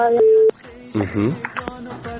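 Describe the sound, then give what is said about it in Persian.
Telephone busy tone after a caller's line dropped, a single steady beep that cuts off abruptly, followed by a person talking. “بله بله فکر میکنم تماس شنونده ما هم قطع شده”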